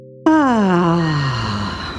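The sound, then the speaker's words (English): A relaxed, voiced groaning exhale from a deep belly-breathing technique: one long moan that starts fairly high and slides steadily lower over about two seconds, loud and alone. “You breathe in deeply to your belly, and on the exhale, you literally make this sound.”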